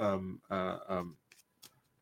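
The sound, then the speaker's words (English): Soft shuffling of a deck of cards: a few faint brushing riffles after a stretch of talk, quiet and brief. “I'm just shuffling the card here”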